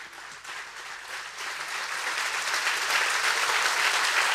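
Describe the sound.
Audience applause in a church: a steady wash of many hands clapping that swells in loudness over a few seconds and continues with no talk.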